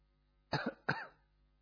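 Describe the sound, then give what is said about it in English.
Two quick coughs from a person during a relaxation exercise, the first with a doubled burst. They are faint and short, with near silence around them. “You may cough if you want to.”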